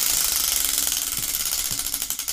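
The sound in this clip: A spinning wheel gives rapid, loud, rattling ratchet clicks in a steady run that gradually spaces out.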